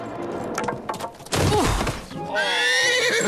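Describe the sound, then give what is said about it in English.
A horse neighs loudly as it rears up and gallops forward in a jousting scene with an armoured rider. Clattering hoof sounds come first, then a burst of heavy noise with a sharp whinny, and further neighing calls near the end. “A mighty horse rears up and gallops forward, controlled by a muscular student in armor.”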